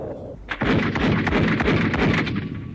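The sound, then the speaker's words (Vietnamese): Gunfire and artillery in a radio drama battle scene as an enemy tank leads advancing infantry. After a brief quieter lead-in, dense rapid shots crackle nonstop over heavy low booms, loud and continuous to the end. “Các đồng chí chuẩn bị chiến đấu. Một xe tăng đi đầu. Bọn bộ binh đi sau xe tăng đấy. Các đồng chí, bắn.”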